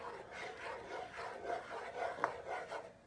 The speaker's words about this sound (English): And if you feel little clumps of sugar, it's okay. Just mush them with your spoon. Always scrape the bottom with your spoon.